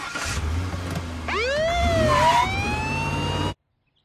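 A police squad car siren wails, sweeping up sharply in pitch and then holding a high, wavering tone over a low engine rumble before cutting off abruptly.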